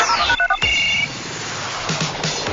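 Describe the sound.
A telephone call connects on a call-in line: a few short electronic tones, then a steadier higher beep, giving way to continuous line hiss with faint clicks.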